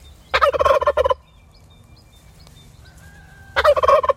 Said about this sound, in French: Et là, le verger, avec ses arbres, la prairie, on est dans un écosystème qui leur convient parfaitement. Et là, ils vivent leur vie de dindon.